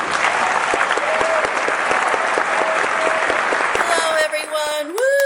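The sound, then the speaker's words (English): Applause welcoming a guest: dense, steady crowd clapping that thins and breaks up near the end. “So everybody, put your hands together and help me welcome our new friend of the podcast, Erin Anfinson Pirani.”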